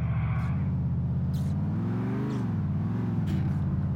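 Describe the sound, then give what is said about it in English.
A car engine drones in the video game GTA IV. It is a low, steady hum whose pitch climbs slightly midway, then eases back down and evens out, heard alone at a moderate level. “I have a feeling somebody messed with the suspension on this car because it does not feel right.”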